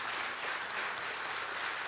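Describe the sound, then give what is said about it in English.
A church audience applauds to honor a longtime member, a dense and even roar of many hands clapping at once. The sound is fairly faint and steady throughout, with no voices. “Would you join me in giving a tremendous applause to Audrey?”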